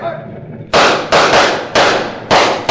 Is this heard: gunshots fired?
yes